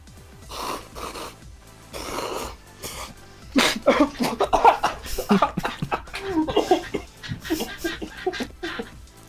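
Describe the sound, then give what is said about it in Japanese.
Choking coughs from someone who swallowed extremely spicy food the wrong way: a few separate harsh coughs give way to a long run of rapid, sputtering, throaty bursts, loud and ragged. “でも俺むせるつもりなかったんだけど普通にむせちゃったの。”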